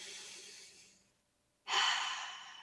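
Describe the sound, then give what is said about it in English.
A deep breath is drawn in. A soft breath fades out, a short silence follows, then comes a loud, airy inhale that tapers off slowly, with no talk. “Take a nice deep breath in.”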